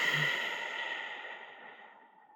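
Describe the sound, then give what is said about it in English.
One soft breath is let out through the nose during a breathing exercise, a faint airy exhale that slowly tapers away over about two seconds. “Again, breathing in deeply through the mouth, through your imaginary straw. And exhaling through your nose.”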